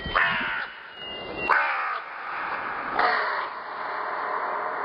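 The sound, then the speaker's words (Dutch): Three harsh, raspy crow caws about one and a half seconds apart, loud and alone. “Hoezeer haat ik kraaien. Kraaien, niets dan kraaienmunten.”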